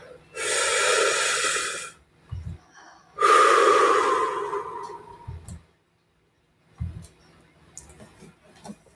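Deep breathing: two long, loud, rushing breaths, each lasting about two seconds and separated by a short pause, followed by faint scattered clicks and quiet.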